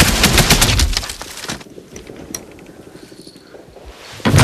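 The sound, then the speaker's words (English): Automatic gunfire rakes a wall in a wartime drama scene. A loud, rapid burst of shots fills the opening stretch, then gives way to a quieter spell with scattered rattling. A sharp final burst erupts just before the end. “Henderson crouches and raises his automatic. Upham? Upham! Henderson rakes the wall with bullets.”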